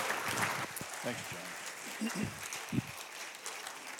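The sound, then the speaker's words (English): Congregation applauding to welcome a guest speaker at a morning church service: steady, dense clapping that holds throughout, with voices speaking over it. “But how about we just encourage him, welcome him this morning, give him a hand.”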